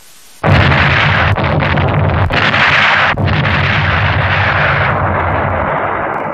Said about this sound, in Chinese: 不像是发现目标， 是敌人乱打炮。